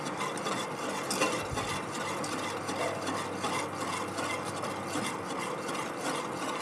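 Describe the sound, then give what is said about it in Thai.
Stirring of a heated mixture in a pot that is meant to set into a natural gel: a steady, faint scraping and rubbing texture that continues throughout with no voices. “ในกรณีที่เราทำความร้อนขึ้นก็ต้องเร็วนะคะ ใช่ค่ะก็ต้องมีการกวนให้เร็วขึ้น”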